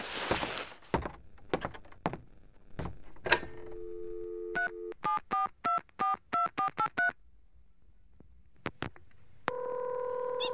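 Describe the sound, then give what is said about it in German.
A telephone dialed to call a taxi: a few handling clunks and knocks, a steady dial tone, then a quick run of touch-tone keypad beeps, and after a pause a sustained line tone sounds. “Dürfte ich uns von Ihrem Telefon aus noch ein Taxi rufen? Na gut, mein Telefon ist hier.”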